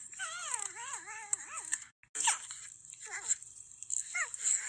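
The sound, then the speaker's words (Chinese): Porcupine calls that sound like a crying baby: one long, wavering, whining cry with shifting pitch, then after a brief pause several shorter squealing whimpers. “大家其实我相信应该很少人听过豪猪的叫声， 可以说跟我想象中完全不一样， 真的很有趣耶。 就是小孩的叫声，就是那种婴孩叫声。”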